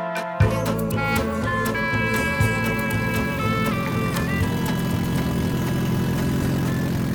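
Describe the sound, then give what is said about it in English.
A car engine without a catalytic converter roars through a bad exhaust system, a loud, steady, rumbling drone with a rich harmonic hum that starts abruptly and holds throughout, with no voices. “Well, that sounds like a car where the exhaust system has gone bad one way or another. That's right. That is the lovely roar of a car without a catalytic converter.”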